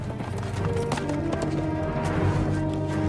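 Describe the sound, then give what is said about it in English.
Steady clip-clop of a white horse's hooves as it is ridden through a village, a continuous run of hoofbeats at even loudness from start to finish. “Gwen rides up on her white horse.”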